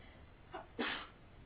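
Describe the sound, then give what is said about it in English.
A person sneezes once: a brief, faint intake is followed by a single sharp sneeze burst that trails off quickly, heard alone against a quiet background. “bless you. In India, when someone sneezes, what do you say?”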